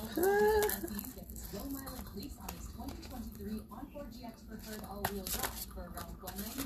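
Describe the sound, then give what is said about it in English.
Tarot cards being shuffled during a reading for Pisces: soft papery riffles and flicks under steady talk, with a few sharper snaps of the deck. “how to shuffle these cards. Hold on, you guys. Hold on.”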